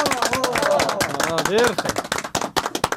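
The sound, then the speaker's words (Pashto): Studio audience clapping to reward a correct quiz answer, sharp bursts of applause mixed in with talking and growing more distinct toward the end. “بلکل سم ځواب دی راکل، چک چک ورته ووهئ.”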